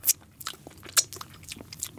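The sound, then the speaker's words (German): Chewing and biting as edible gold leaf is eaten from a small spoon, a few soft, brief crunchy mouth sounds spaced irregularly, two slightly louder than the rest, with no talk. “Ich habe hier auch so ein Löffelchen. Und wir essen jetzt einfach ein bisschen, einfach mal so einen Finger wegnehmen.”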